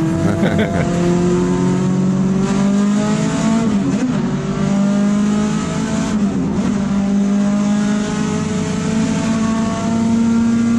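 Race car engines roar at the start of a race, on the first lap heading into turn one. Several engines blend into a loud, continuous drone, with their pitch climbing and shifting through gear changes.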